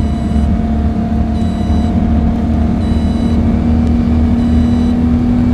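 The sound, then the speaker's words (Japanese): Loud, steady engine drone of a spartan, race-car-like Lamborghini sports car, a constant whirring roar holding an even pitch throughout with no voices. “こいつはランボルギーニの中でも最もスパルタ。フェイングがある。レーシングカーに近い。”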